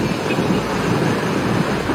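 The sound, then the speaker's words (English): Ocean waves breaking again and again on the shore, a continuous loud, rushing roar with no pause or distinct individual crashes and no voices. “And they keep getting hit with the waves. It's like never ending here.”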